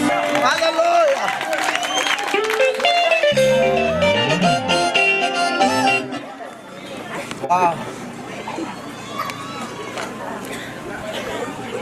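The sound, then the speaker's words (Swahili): Applause and crowd chatter rise from a church audience. A loud stretch of voices and music gives way midway to a steadier, softer wash of clapping and murmuring talk. “Aya wapi makofi mazuri jameni. Ongeza sema.”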